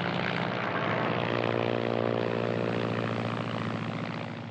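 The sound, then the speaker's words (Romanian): A propeller aircraft comes in to land, its engine droning loud and steady with a strong harmonic hum throughout, easing slightly toward the end. “A aterizat! Extraordinar! A executat aterizajul ca un pilot încercat.”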